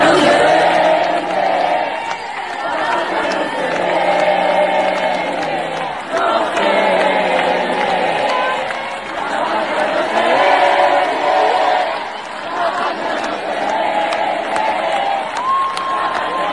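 Concert audience cheering, whooping and applauding at a singer's recital in Argentina: a loud, continuous crowd roar full of shouts that swells and eases in waves.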